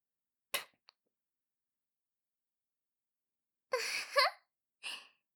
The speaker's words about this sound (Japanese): そろそろ唾液がたまりましたから、早速唾吐いてあげますね。